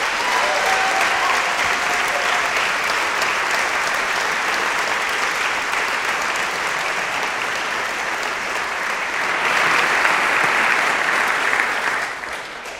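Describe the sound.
An audience at a seminary chapel gives a warm welcoming round of applause to a guest speaker. Dense, sustained clapping swells briefly near the end, then begins to fade.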